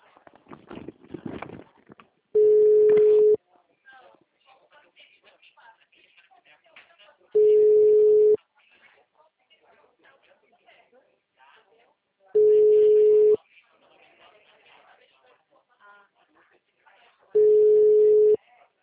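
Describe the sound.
Four steady, mid-pitched ringback tones sound on an outgoing telephone call, each about a second long and spaced roughly five seconds apart, with a voice speaking at the start and faint talk in the gaps.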